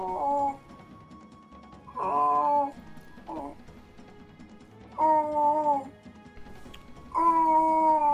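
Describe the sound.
A baby babbles in several short tonal bursts, bright and sing-song, separated by quiet gaps.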